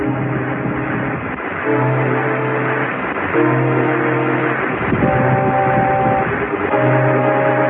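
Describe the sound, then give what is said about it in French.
Racing kart engines from a kart racing video game sound as buzzy, synthesized motor tones. They come in several repeated, steady-pitched bursts over a constant background hum, with no talking. “La course automobile sur micro ou sur console a détrôné les antiques Scalectrix et autres circuits 24. Super Mario Kart utilise un nom connu.”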